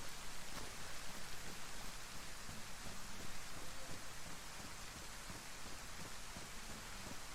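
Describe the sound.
Steady rain falls in the woods, making a dense, even hiss of drops that holds at the same level throughout, with no talk.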